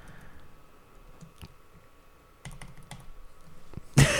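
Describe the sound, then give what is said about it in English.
Computer keyboard typing during a Google search: scattered soft key clicks that grow denser and quicker toward the end, closing on a louder burst of clatter. “Could you actually search this on Google? Yeah. Search it. What do I type in?”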